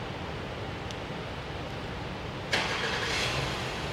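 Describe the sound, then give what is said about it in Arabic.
A car engine starts after a long press of the start button. Faint background noise gives way, partway through, to the engine catching with a sudden burst and then settling into a steady, louder running hum. “شوف السيارة ما شاء الله اشتغلت”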